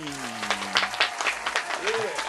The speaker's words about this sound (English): Live from the SandiCare Studios hotline, give a warm welcome for Brooklyn Demme!